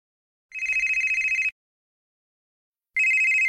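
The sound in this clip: A telephone ringing: two bursts of bright, trilling electronic ring, each about a second long and separated by a silent pause, the second cut off at the end, with no talk.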